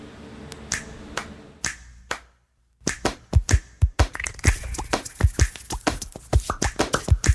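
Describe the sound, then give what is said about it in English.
Rhythmic finger snaps, claps and slaps, with every sound in a piece of music made by hands. Many sharp percussive hits form a groove, broken by a brief gap of silence before the pattern returns, busier and denser. “Hands can do incredible things. They made every sound in this piece of music.”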